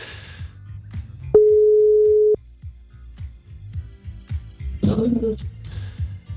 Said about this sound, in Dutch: We gaan hem nog een keer proberen te bellen.